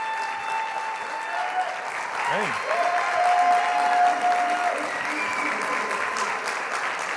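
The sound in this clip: A church audience applauds to welcome a pastor before his sermon, with sustained clapping from many hands that swells slightly midway.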